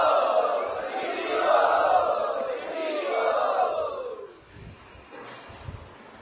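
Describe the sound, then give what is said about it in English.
A crowd loudly chants Hare Krishna together. The massed voices swell and hold for about four seconds, then drop away to quieter scattered sounds. “Let us welcome them by loudly chanting Hare Krishna.”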